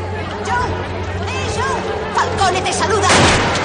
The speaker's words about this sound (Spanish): La rubia ha disparado a Chip que cae muerto al suelo.